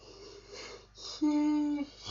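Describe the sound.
A person yawning aloud: a breathy intake followed by a sustained, steady-pitched voiced moan lasting about half a second, then a quick fade.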